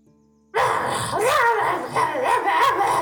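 A dog barks abruptly after a near-silent half second, then carries on with yipping and whimpering cries over a steady, noisy background.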